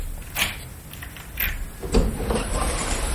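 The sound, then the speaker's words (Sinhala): A door is opened with a few faint clunks and scrapes, spread unevenly over a low, steady background rumble. “අපි ඒ දොරත් ඇරලා බලමු.”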